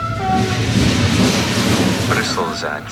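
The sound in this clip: Steady, dense rumble and rattle of a passenger train running on a long-distance journey toward Brussels-South, continuous and fairly loud, with voices faintly audible toward the end.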